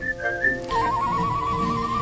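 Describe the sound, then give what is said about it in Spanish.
Whistling of a famous whistled piece: a clear, high, pure melody that opens with a few short notes, then settles into a long sustained tone. “Durante décadas fue una de las obras silbadas más conocidas del mundo.”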